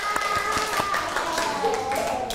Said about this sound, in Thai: เก่งมากๆเลยค่ะปรบมือให้ตัวเองหน่อย